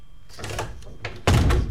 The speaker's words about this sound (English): So if you want to come with me, hop into the time machine. Okay, shut the door.